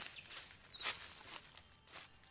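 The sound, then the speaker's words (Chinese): Soft footsteps of an ancient tree grandfather in a riddle forest: a few faint, muffled steps in an uneven rhythm, heard alone in quiet. “哎，有脚步声传来，神木爷爷要出动了。”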